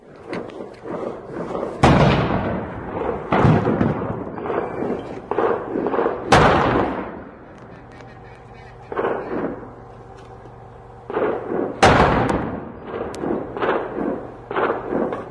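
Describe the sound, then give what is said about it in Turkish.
Heavy booms of explosions and artillery cannon fire in the city of Diyarbakır, several broad bursts with rumbling tails at irregular gaps, some loud and others softer, over a low steady hum with no voices. “Diyarbakır her güne bu patlama sesleriyle uyanıyor. Her patlama Diyarbakırlıların yüreğini dağılıyor. Biliyorlar ki duydukları her top atışı bir can alıyor”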